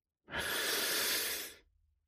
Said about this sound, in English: Now, take a deep breath.